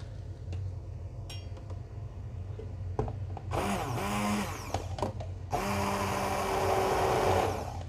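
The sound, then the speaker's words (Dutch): A hand blender purees gravy with soft onions in a sauté pan. After a few light clinks come two loud whirring bursts, and the second one runs longer. “dan ga ik die jus even pureren. Dus dat die, eh, die uien die zijn al helemaal zacht.”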